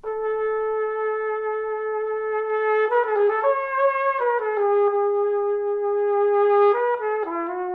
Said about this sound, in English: That's the sound of a saxhorn